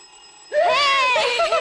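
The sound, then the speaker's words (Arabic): A telephone rings with a melodic electronic ringtone in a drama scene. After a faint steady hum, a bright, warbling tone starts abruptly and continues loud and unbroken. “ايه ده التليفون راني نطق. طب ما ترد يا عمار.”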